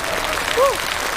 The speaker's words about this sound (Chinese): 再次掌声感谢